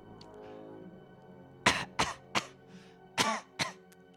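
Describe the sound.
Several sharp human coughs voice were-rats in a tabletop fantasy role-playing game, loud bursts coming in quick succession about a third of a second apart, with no talk over them.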